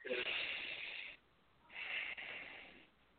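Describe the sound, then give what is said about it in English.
Two slow, deep breaths during a guided heart-centre breathing exercise, each a soft, airy hiss lasting about a second, separated by a short quiet pause, with nothing else audible. “Go ahead and breathe into your heart center for me, sweet man.”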